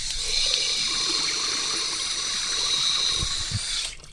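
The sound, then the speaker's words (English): Tap water runs as hands are washed before a finger-prick blood test, a steady hissing stream that holds evenly for several seconds and then cuts off. “Can I get you to wash your hands? Yes.”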